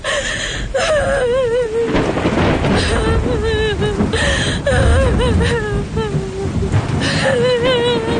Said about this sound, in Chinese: 哭着跑回了自己屋子，关上门大声地哭了起来